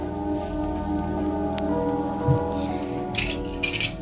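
A wine glass is set down on a bar counter and refilled, heard as a few light glassy clinks followed by short splashy bursts near the end.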